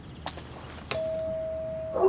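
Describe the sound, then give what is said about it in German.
A doorbell rung at a house's front door: a couple of sharp clicks, then a steady, single-pitched electronic tone holding for about a second before ending in a brighter, louder burst. “Alle bereit? Okay, ich klingel mal.”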